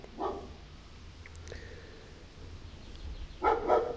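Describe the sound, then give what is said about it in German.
A neighbour's dog barks a few times, faint and sharp, with one bark early and a quick pair near the end over quiet background noise. “ja, der Hund vom Nachbar ist.”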